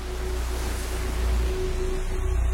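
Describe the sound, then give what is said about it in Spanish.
Ocean waves breaking on rock give a continuous low, rushing roar of surf with a steady wash. No single breaks stand out and no voices are heard. “Las olas rompen en la roca cerca de Álvaro.”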